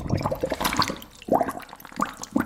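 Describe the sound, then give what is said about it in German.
Water runs into a plugged washbasin, a continuous splashing, gurgling flow with bubbling bursts as the basin fills, fairly loud and alone. “Wasser ins Waschbecken. Ein Mini-Swimmingpool.”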